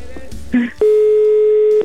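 A telephone ringback tone sounds after a number is dialed and the call goes unanswered: one steady, mid-pitched tone lasting about a second, preceded by a brief burst of noise.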